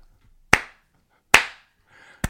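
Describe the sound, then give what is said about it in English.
Two people slap their buttocks together, making three crisp, sharp smacks about a second apart, with near silence between them. “we aren't clapping. We're slapping our butts against each other's, like that”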